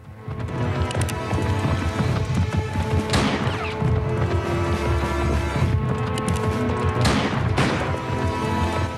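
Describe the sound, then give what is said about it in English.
A horse gallops off through trees during a Civil War-era chase, its rapid hoofbeats pounding loud and continuous amid a dense mix of other sound. “Jim leaps onto Stanton's horse and gallops off through the trees.”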